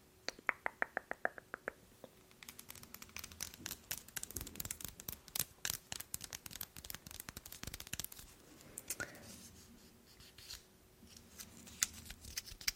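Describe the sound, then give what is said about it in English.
Brisk clicking and rattling as a new, unused measuring tape is handled, a dense run of many sharp taps, snaps and scrapes, with a short buzzy, pitched pull of the tape near the start. “So I have this measuring tape.”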